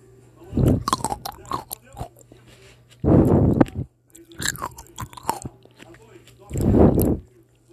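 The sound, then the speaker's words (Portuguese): Someone bites and chews a sweet grape. A few loud, crunchy bursts stand out, with softer wet chewing sounds between them. “Vamos lá primeiro comer uma uva.”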